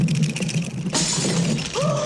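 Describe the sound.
Observatory window glass shatters in one sudden, bright burst of breaking that cuts in abruptly and lingers briefly.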